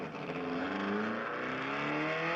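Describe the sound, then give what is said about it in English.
Engines of cars drag racing outside, a steady, faint droning roar with layered tones that climb slightly as the engines rev. “just some kids drag racing outside, I think”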